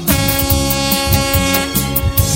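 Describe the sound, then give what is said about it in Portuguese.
A truck air horn sounding as a loud, sustained, brassy blare held steady throughout, over a rhythmic thumping beat. “a buzina da Beth dá pra sair?”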